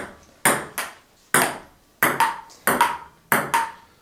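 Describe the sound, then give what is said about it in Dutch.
Table tennis ball in play in a large sports hall: a rapid, uneven series of crisp, bright pocks, some falling in quick pairs, with short quiet gaps between them. “ik heb zelf jarenlang op tafeltennis gezeten. Ik speelde bij Sjaardema in Oegstgeest en bracht mijn zaterdagen door in grote sporthallen met dit geluid.”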